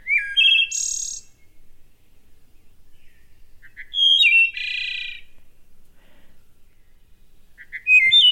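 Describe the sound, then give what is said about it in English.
A wood thrush calls in three phrases of clear, flute-like whistled notes, each a quick run ending in a shimmering flourish. Quiet gaps separate the phrases, and the last is cut short. “This is the call of the wood thrush, which has declined more than 40%, I believe, since the 1960s.”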